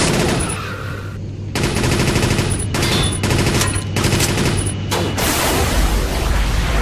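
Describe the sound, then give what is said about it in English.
Loud automatic machine-gun fire in a video game, rattling in several rapid bursts broken by short gaps, with heavy booming impacts mixed in. “Machine gun. 100 nukes, 4. Missile was supplied.”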